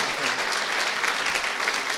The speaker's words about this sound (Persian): مرسی، تشویقش کنیم واقعا.